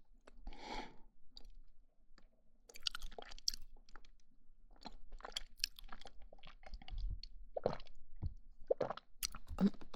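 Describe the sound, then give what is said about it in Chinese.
Someone eats and chews into a microphone for about ten seconds: many crisp crunches and moist, squishy bites in an irregular rhythm, mostly quiet, with a soft breathy rustle at the start and no talking. “真的觉得这个麦克风录吃东西的声音好听，包括这种喝水的吞咽的声音。”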